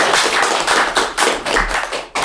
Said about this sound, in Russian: Давайте похлопаем.